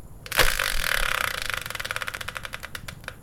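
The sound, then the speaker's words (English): A game-show style prize wheel spinner turns with a burst of rapid clicking ticks that gradually space out and slow as the wheel loses speed. “So let's bring in the Wheel of Fortune-style spinner and find out what today's subject will be.”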